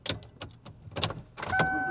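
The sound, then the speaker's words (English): A car being driven home, with a few irregular thumps and rustles giving way to a steady hum and a faint, high sustained tone. “And I am driving home.”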